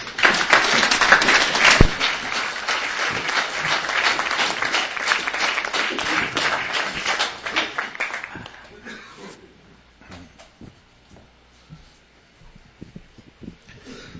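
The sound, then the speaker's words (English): An audience applauds to welcome a pastor onto a stage, with dense, steady clapping that fades out after several seconds. Quieter scattered sounds follow the applause. “Help me welcome up Pastor Steve Greenberg.”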